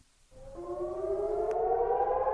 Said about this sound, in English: When sirens warn of a rocket attack, residents of Eilat in southern Israel have about 30 seconds to get a shelter.